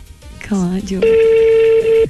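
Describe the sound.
A telephone call rings out with one long, steady, even tone held for about a second, following a brief stretch of voice.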